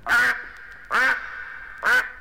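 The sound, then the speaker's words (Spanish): Three loud, nasal duck quacks, each a short burst, spaced evenly with quiet gaps between them. “¡Decidme, señor pato! ¿Cómo haréis por la noche?”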